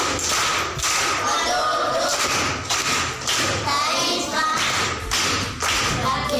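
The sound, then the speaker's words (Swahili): Schoolchildren at a primary school in Nyasura give a round of rhythmic applause, many loud, thudding claps landing in a regular repeating pattern that continues throughout. “Makofi kwa shangazi.”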